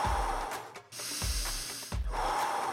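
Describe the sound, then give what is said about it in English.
Deep, forceful breathing in and out during a breathwork practice: loud, rushing breaths follow one another in a steady rhythm, broken by a few brief pauses, with no talk. “Taking a deep breath in, deep breath out. In and out. In and out. Back in, back out.”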